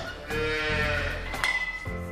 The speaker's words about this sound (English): Her cows began calving 2 weeks ago and will continue over the next 6 weeks.